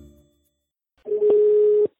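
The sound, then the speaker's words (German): A telephone call being placed: after a brief silence, a steady mid-pitched dial tone sounds for under a second, marked by a couple of sharp clicks, with no voices. “Ich habe die Vorsitzende des österreichischen Frauenringes, Claudia Frieden, angerufen und dazu befragt.”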